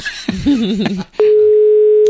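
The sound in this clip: A steady telephone dial tone sounds after a wrong call to the same number: a brief wavering voice comes first, then a loud, unbroken single-pitched tone holds to the end.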